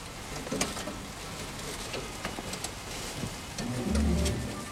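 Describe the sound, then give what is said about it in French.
Raindrops fall on a zinc roof in a steady, grainy hiss scattered with sharper individual drop ticks. The patter swells slightly louder toward the end. “On entendait des gouttes de pluie sur le zinc.”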